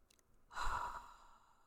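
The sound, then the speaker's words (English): A single deep breath during a guided prayer breathing exercise, soft and airy, swelling and then fading over about a second, with no talk. “Let's breathe together three times. Inhale love.”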